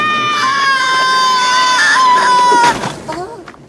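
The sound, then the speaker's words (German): A small flying creature screams as it is flung through the air from a fern frond and lands on the ground, in a children's audio drama: a long, loud, shrill cry that sags slightly in pitch, then cuts off into a few short thumps. “Und als Littlefoot ihn loslässt, wird er durch die Luft geschleudert und landet mit einem Schrei auf dem Boden.”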